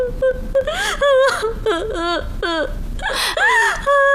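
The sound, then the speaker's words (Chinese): A person cries, sobbing and wailing in a high, wavering voice, with repeated whimpering cries and broken breaths, loud and without other talk. “哎，你哭什么呀？啊？哎，你别哭啊，有话说呀。不许哭。”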